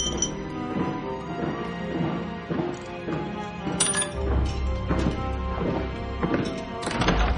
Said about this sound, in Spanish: Se quita los anillos y los deja en una copa.